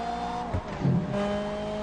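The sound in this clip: Racing cars tear around an off-road track in a video game, their engines a steady tonal whine, broken midway by a brief rougher burst like a skid before the droning resumes.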